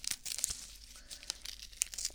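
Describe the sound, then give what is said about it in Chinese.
Adhesive tape is torn off to make a bandage after an injection, a newer kind of tape rather than the old rolled type, giving faint, quick crinkling and short tearing rasps in an irregular pattern. “打完针之后贴到你手上的胶带，对，现在用的都是这种胶带了，跟之前的不太一样”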